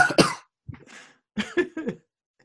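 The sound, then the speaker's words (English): Harsh, loud coughs come in a few separate bursts, the first a quick double cough, followed by a brief pause and several more hacking coughs, with no talking. “I think he just coughed.”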